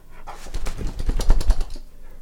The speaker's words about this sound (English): Oh, hi there. My name's Koopa, and I'm a dog.